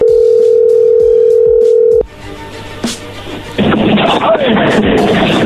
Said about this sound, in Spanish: Márcale de nuevo.